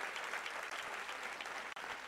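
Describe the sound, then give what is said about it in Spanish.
A church audience applauds, with soft, continuous, evenly textured clapping that stays faint throughout. “Dele mejor ese aplauso al Señor. Déselo mejor.”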